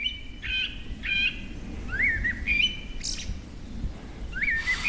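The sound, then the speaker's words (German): Forest birds sing in the evening before dark: many short chirps and rising, whistled calls at moderate volume over a steady, low background rumble. “Eine Runde mit Abendkonzert der Waldvögel.”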